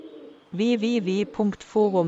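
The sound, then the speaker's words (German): Pigeons cooing in a few throaty, low-pitched phrases, the first a run of three linked pulses followed by two shorter calls, fairly loud with brief gaps between them. “Tauben vertreiben.”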